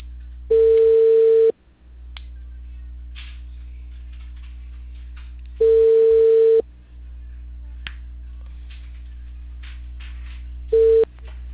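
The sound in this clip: A telephone busy signal: a steady mid-pitched tone sounds in three bursts of about a second each, separated by long gaps over a low electrical hum, the last burst cut short.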